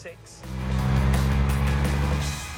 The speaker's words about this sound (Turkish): Vites kutusu iyi durumda değil mi? Çok çok güzel. 3.2 sıralı 6 motordan gelen güç hissediliyor.